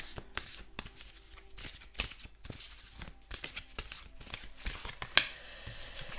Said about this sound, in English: Okay, just gonna move those over to the side and let's pull one of these cards here.